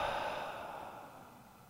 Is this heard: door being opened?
no